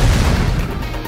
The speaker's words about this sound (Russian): Секундой позже оглушительный взрыв на несколько секунд лишил меня слуха.